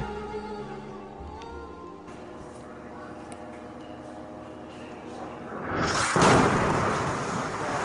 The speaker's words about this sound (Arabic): في قصف، القصف قريب، القصف قريب يما.